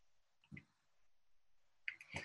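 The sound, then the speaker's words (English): A few faint, sharp computer mouse clicks while Generator X is selected in software. One click comes early, then a pair close together near the end, with near silence between. “So I'll click on Generator X.”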